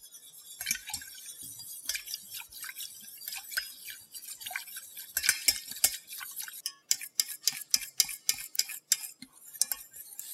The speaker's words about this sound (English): I'm just going to put it over a low heat and warm it slightly and keep stirring with a whisk.